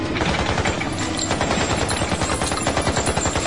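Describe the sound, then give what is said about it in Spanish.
Rapid gunfire comes from a Coast Guard boat firing on a fleeing smuggling crew. The shots form a dense, continuous stream of sharp cracks like machine-gun fire, loud and steady throughout, with no talk. “La Guardia Costera apuntó y disparó. McCoy fue superado en armas.”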